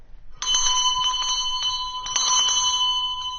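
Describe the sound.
A small hand bell rings to summon a servant, struck several times in quick succession. Its bright, sustained metallic tone hangs on between strikes.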